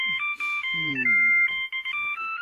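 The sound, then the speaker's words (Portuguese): An electronic telephone ringtone plays a continuous warbling pattern of bright two-tone beeps that switch pitch rapidly and repeat throughout. “Telefone, querida.”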